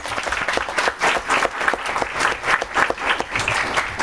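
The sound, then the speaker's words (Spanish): An audience applauds the participants of a panel at an international law seminar. The clapping is dense and steady, holding a loud, even level for the whole few seconds. “Un aplauso, por favor, para los participantes.”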